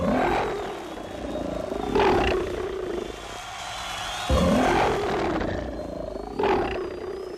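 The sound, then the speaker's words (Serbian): Lions roaring in an arena: a few deep, rumbling roars swell and fade one after another, each loud and drawn out, with no voices over them. “Lavovi već počinju svoj krvavi posao”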